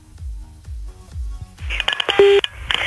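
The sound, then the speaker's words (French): Short electronic beeps and tones of a telephone number being dialed for a call on a radio show, a quick irregular series coming after a run of deep rhythmic thumps. “on appelle maintenant grâce au numéro que vous avez envoyé”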